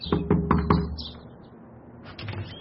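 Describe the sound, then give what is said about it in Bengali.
Four quick knocks on a wooden-sounding door off a veranda, evenly spaced in one brisk burst, then near silence. “Byomkesh সেই দরজায় টোকা মারল।”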